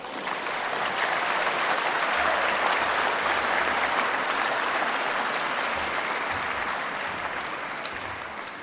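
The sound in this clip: Audience applause welcomes a guest speaker to an exhibition opening at the National Museum of Australia. The clapping is dense and sustained, holding steady throughout and easing off slightly at the end.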